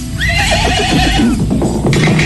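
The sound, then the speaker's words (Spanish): A horse neighs in a long, loud whinny with a wavering, shaking pitch over a steady low rumble. The horse belongs to a poor farmer working the land. “¡Qué desgracia, padre! ¡El caballo se nos ha escapado!”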